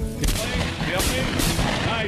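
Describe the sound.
Gunfire aimed at a white turkey gobbler during a hunt crackles through as sharp, loud bursts within a dense, noisy background.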